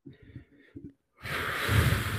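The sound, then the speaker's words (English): A person standing up takes a deep breath, heard as a loud, sustained rushing breath of about a second. Brief, softer breathy sounds and a short pause come before it. “I'm bringing the energy up. Take a deep breath.”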